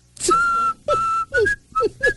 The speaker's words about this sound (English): how could you whistle at a time like this?